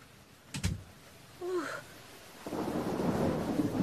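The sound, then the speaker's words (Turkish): Rain falling outside at night, with a low thump and a brief squeak early on before a steady hiss of rain takes over, all fairly faint. “Gece bir yağmur var dışarıda. Çok ıslandım.”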